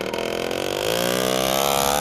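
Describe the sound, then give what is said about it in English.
A motorbike engine outside in a working-class neighbourhood of Seville gives a steady buzzing drone, then its pitch rises partway through and settles into an even, higher hum with no voices. “And outside is Rafael's motorbike.”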